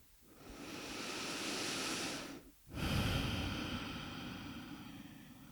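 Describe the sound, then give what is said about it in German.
Deep breathing during a guided meditation: a long, loud, airy inhale, a brief pause, then an equally long, full exhale. “Und atme tiefe ein und aus”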